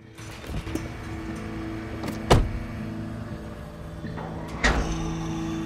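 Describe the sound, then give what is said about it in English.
A car door sounds as a man gets into his car: two sharp door thuds, one near the middle and one near the end, over a steady low hum. “He gets in the car and sits down, rubbing his neck wearily.”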